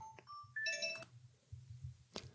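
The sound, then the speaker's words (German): A telephone rings with an electronic ringtone: a quick series of clear, bright beeping tones, followed by a brief second burst, over a faint low background murmur. “Jetzt klingelt das Telefon, das macht gar nichts. Ich gehe kurz ran.”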